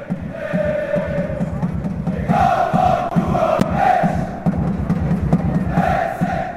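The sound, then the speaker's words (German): Football fans of St. Gallen and Luzern sing in the AFG Arena stadium early in a 0-0 match, a crowd of over 11,000. Massed voices hold chant notes over a rumbling, pulsing roar, rising and dipping in loudness. “Es ist laut im Stadion, die Stimmung bei den Luzerner und den St. Galler Fans ist gut, auch wenn es nur 0-0 steht.”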